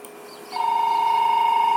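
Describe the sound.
A telephone rings with a steady, high electronic tone that starts abruptly and holds to the end. The tone carries a slight rapid pulsing and plays alone, with no talk over it.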